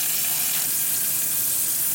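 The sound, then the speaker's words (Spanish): Butter burns and sizzles in a pan: a steady, bright, crackling hiss that stays even all the way through, with no talk over it. “Lo que se acaba de vivir ahorita es que se quemó tantita mantequilla aquí en un pan.”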